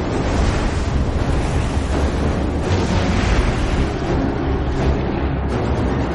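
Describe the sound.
Sea waves and wind rush past an ancient Greek ship as it sails toward the Persians, a steady, unbroken roar of surf and spray with no voices.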